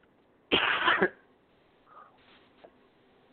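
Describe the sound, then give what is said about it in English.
A single short, rough cough, loud and alone, followed by a few faint small sounds. “excuse me, I want to cough”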